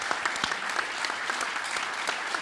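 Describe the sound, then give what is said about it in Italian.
An audience applauds as someone is called onto the stage at a Liguria regional event. Dense, continuous clapping runs throughout at an even level. “Un bel applauso!”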